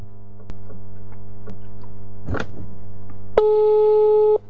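A telephone tone sounds while a phone call is being placed. A faint steady hum carries a few sharp clicks and a short noise burst, then a single loud steady tone holds for about a second and cuts off abruptly.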